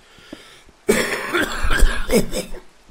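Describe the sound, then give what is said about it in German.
A person coughs on purpose: several rough, throaty bursts come in close succession after a near-silent opening, fairly loud and with no talk. “So, jetzt noch ein bisschen Husten dazu.”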